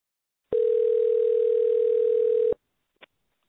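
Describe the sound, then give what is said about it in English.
A telephone dial tone sounds while a guest is being called in, one steady, unbroken hum lasting about two seconds that stops abruptly, followed by a brief faint click. “Okay, I'm going to dial Mark in, guys.”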